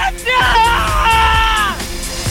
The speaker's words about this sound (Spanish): ¡Ese grito! ¡Pobre el pasajero!